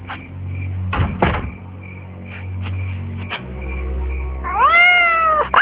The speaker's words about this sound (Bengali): বিড়াল ডাকছে